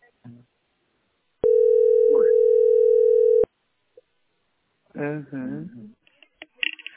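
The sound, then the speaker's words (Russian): Telephone dial tone, heard while an extension number is about to be dialled: a steady single-pitch tone holds for about two seconds, then cuts off abruptly. A few short clicks and a brief voice follow. “Может, добавочный набрать? Вон тут есть добавочный.”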